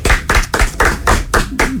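Hand clapping, a steady series of loud, separate claps at an even beat, repeating throughout.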